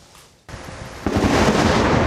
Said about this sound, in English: The lightning bolt split the sky, striking four people in Lafayette Park just across from the White House.